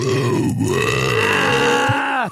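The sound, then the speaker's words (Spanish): A loud, drawn-out burp: one continuous, low, voiced belch that lasts about two seconds and cuts off abruptly at the end. “Y reprodujimos este asqueroso eructo. Como 200 veces.”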